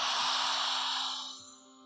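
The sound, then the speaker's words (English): A slow inhale through the open mouth, a soft, airy rush of breath that holds steady for over a second and then fades away, heard alone and faint. “And from there, slowly inhale through the open mouth like this.”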